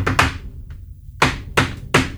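A drummer taps out a short ostinato rhythm pattern: crisp, sharp, percussive hits grouped in a repeating figure with a pause in the middle.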